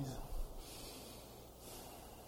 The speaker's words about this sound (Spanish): Otra vez, vamos a respirar así.